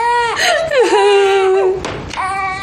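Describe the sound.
A baby cries in a loud, wavering wail with high, drawn-out tones that dip and break off, followed by a final whimpering cry, with no talk over it.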